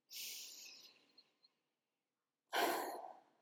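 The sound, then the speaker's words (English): Slow deep breathing during a guided breathing exercise: a long, airy breath that gradually fades, a stretch of silence, then another strong, rushing breath that tapers off, soft and alone. “slow down, take your breath. Let's do one now.”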